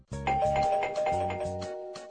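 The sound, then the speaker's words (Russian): A doorbell rings with a quick run of bright electronic chime notes in a repeating pattern, fairly loud and alone, then fading at the end. “Однако звонить не пришлось. Раздался звонок в дверь.”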